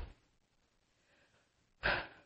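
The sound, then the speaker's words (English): Deep breaths taken before speaking: a short breath at the start, a quiet stretch of faint breathing, then a louder, fuller breath near the end. “But okay, here we go. Deep breaths.”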